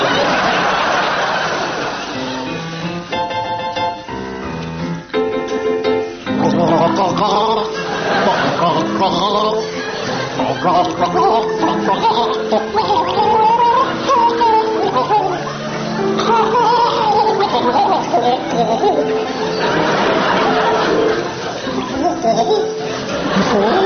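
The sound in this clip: A person gargles a song, the bubbling, throaty voice carrying a recognisable melody in a continuous, fairly loud stream for over twenty seconds.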